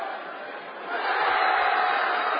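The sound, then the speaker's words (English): Crowd cheering at a high school basketball game as Holland High fans react to what looks like a turnover. It is a steady roar of many voices that swells louder partway through and holds. “The cheer was momentarily as the Holland High fans thought they got a turnover.”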